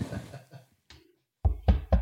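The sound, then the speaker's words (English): Three loud, heavy knocks on a door come in an even rhythm near the end, after softer scattered sounds and a stretch of silence. “You be knocking on our door.”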